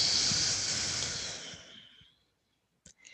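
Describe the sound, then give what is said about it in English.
A long, slow exhale during a breathing exercise makes a steady airy hiss that gradually fades out over about two seconds, followed by a couple of brief faint sounds. “And then exhale, release down slow. Pause, breath in. And a long, slow breath out.”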